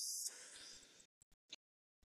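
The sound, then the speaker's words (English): A slow, deliberate breath is drawn in as a steady airy hiss lasting about a second, then it stops. A few faint, brief clicks follow in the quiet. “And when I take a breath, guys, it's very intentional. I do 1, 2, 3 in.”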